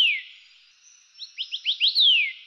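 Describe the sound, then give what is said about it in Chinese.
Song of a white-eared sibia: a high, clear falling whistle, then a quick run of five short upward-slurred notes ending in a long descending whistle, heard alone. “下一个是白耳画眉”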